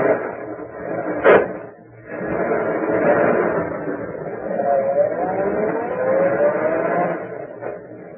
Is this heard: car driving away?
yes